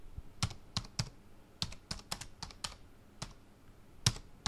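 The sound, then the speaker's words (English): Typing on a computer keyboard while a name is entered into a search: many crisp, irregular key clicks with uneven gaps, some in quick pairs, alone without any talk. “Can you hear me typing? I'm going to be typing. I'm going to type in the name Bruce Wayne”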